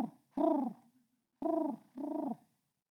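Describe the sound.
A human voice imitates the soft cooing of a dove: three low, hollow, throaty coos with pauses between them, and a fourth just starting at the end.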